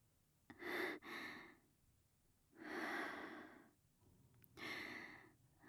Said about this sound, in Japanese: 深呼吸、深呼吸。